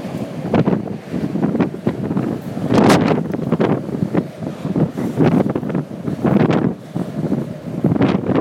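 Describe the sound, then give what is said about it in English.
Cold wind buffets the microphone outdoors, a steady rough rumble and roar that surges and eases in gusts throughout, with no voices. “I'll tell you, the cold wind feels great, though, after the past few days of extreme 90s heat.”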